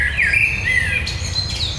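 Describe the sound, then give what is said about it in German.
A blackbird singing, with drawn-out, sliding whistled phrases over steady background noise and a low rumble. “Das ist die Amsel. Hört ihr den Unterschied? Jetzt hört man den gerade richtig gut. Das hat so ein bisschen mehr so Ziehen drin.”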